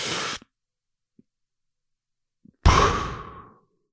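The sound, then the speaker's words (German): A person demonstrates a deep breath with a long exhale: a loud, breathy rush of air lasting about a second that tapers away, after a short earlier burst of breath and a silent pause. “Ja, ja, also das ist wirklich ein tiefer Atem dann so. Mhm, mh. Also so, ich kann, ich mach's jetzt nochmal vor so.”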